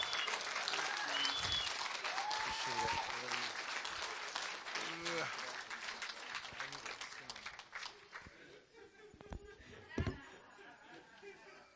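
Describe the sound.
Applause from a church audience standing to give an honorable welcome to its founder and senior leader, a dense, sustained clapping that holds strong for several seconds and then gradually thins and softens toward the end.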